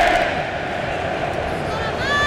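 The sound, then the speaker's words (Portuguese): Loud crowd roar from Norway fans in the stands of a Dallas stadium during a World Cup match, performing their Viking rowing chant and shout. The crowd noise is dense and sustained, with a raised shouted tone near the end. “E os Vikings voltam a fazer o seu espetáculo nas arquibancadas em Dallas. É a remada e aquele grito, né?”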